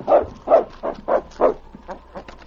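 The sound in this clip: A dog barks at a door: five loud, evenly spaced barks, then a few softer, shorter yips.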